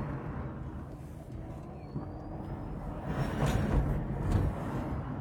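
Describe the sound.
A Sion electric car, battery nearly drained, accelerates at full power, giving a faint, steady low road rumble that swells slightly toward the end, with a thin motor whine above it.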